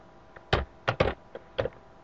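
Keystrokes on a computer keyboard as C# code is typed: several crisp, clicky taps in an irregular quick burst, some landing nearly together, with no talk over them.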